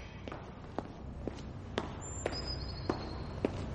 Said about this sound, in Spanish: Un pájaro negro y otro blanco están enjaulados en un solitario pasillo del colegio. Draco Malfoy camina cerca de ellos.